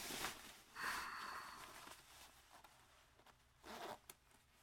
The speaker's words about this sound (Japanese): まずはズボンのチャックを下ろして